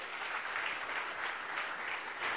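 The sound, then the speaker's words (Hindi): A group at a motivational session claps for themselves, a steady, dense patter of many hands that sounds faint and muffled and stays even throughout. “चलो अपने लिए जोरदार ताली बजाएंगे।”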